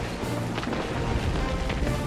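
Fusion rifle fire in a video game: a loud, dense, continuous crackling roar, with a few sharper bursts standing out and no clear gaps between shots.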